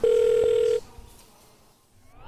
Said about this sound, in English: Okay, well, I'm going to get the girls on the phone.